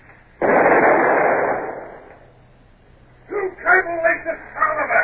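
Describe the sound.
A ship's long nine cannon fires as a drama sound effect: one heavy boom with a rumbling decay lasting over a second. Men's voices talk afterward.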